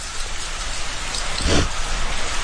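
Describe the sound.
Rain falls in a steady, dense hiss of drops, with a brief louder surge partway through.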